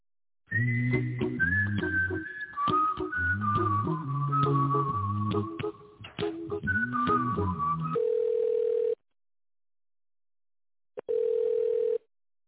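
Telephone hold tones during a call transfer at a company switchboard: a whistle-like electronic melody plays for about eight seconds, then a steady single-pitch tone sounds twice with a gap between.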